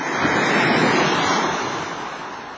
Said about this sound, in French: Est-ce ici la présence toute proche de l'océan qui fait mourir la vague à deux pas du feu?